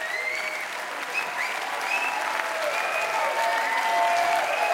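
Sustained applause and cheering from a festival audience in a winery courtyard in Krems, greeting a band's bow after its final encore, dense and steady with occasional high whistles, swelling slightly toward the end.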